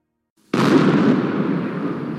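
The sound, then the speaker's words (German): A sudden explosive blast from the demolition of nuclear power plant cooling towers, bursting out of silence into a loud, broad roar and rumble that holds and slowly eases. “Die Kühltürme des Atomkraftwerks Philipsburg wurden gesprengt.”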